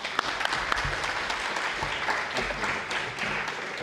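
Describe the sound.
Congregation applause welcoming a speaker to the front of a church. Many hands clap in a moderate, uneven patter with occasional sharper claps standing out, holding steady for a few seconds.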